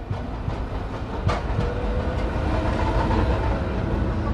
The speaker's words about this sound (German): Eine Straßenbahn fährt vorbei, spuckt Angestellte und Passanten aus.